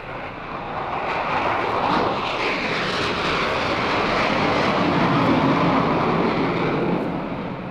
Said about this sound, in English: Roger, Alpha, clear on the active, and clear for takeoff.